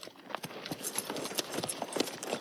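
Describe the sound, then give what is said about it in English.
Hooves of a whole group of horses carrying riders clip-clop in many faint, irregular clicks that overlap in a loose, continuous patter. “Now we've got like you know just a whole fleet of dudes on horses.”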